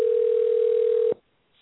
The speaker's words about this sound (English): Give Steve a try really quick and stuff. Let him know we are calling from a private number.